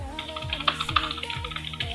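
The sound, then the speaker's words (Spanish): Quick, faint keyboard clicks from someone typing a message on a computer keyboard into a chat, the many taps falling in an uneven patter over soft background music with a steady beat. “Lo voy a estar colocando también acá en el chat. Déjenme lo escribo.”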